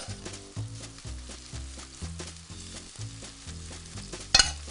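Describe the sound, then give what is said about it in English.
Seafood, sofrito and tomatoes fry in a pan with a crackling sizzle under rhythmic background music, and a brief clatter sounds near the end. “A little more tomato. So now that we have all of our seafoods cooking, I'm going to get all this in here.”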